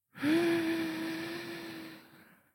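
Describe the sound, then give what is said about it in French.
A deep inhale during a guided breathing exercise: one long, soft breath drawn in steadily for about two seconds and slowly fading, over a faint steady tone. “Allez, on inspire.”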